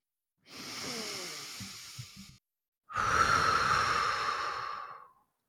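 Two long, deep breaths, each a drawn-out breathy rush of air with a short pause between them. The second is louder and fuller than the first. They are heard alone, without talk.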